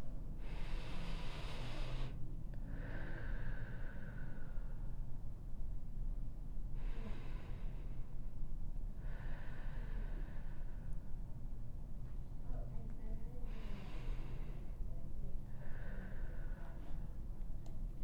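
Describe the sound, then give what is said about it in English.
Three slow, deep breaths during a guided breathing exercise, each a breathy inhale followed by a longer, airy exhale, separated by short pauses over a faint, steady low hum. “Again, we're going to take three deep breaths together. Here we go.”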